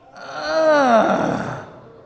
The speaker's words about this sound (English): Matter of fact, let's just groan right now. Groan.